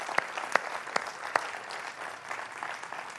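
A church audience applauds to welcome its new student ministry director. A few sharp, distinct claps stand out at the start, then settle into a soft, continuous patter of clapping.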